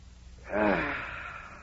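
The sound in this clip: A deep inhale taken during early-morning setting-up exercises in gym clothes: one loud, drawn-out breath in with a voiced, slightly wheezy edge, swelling quickly and then slowly tapering off.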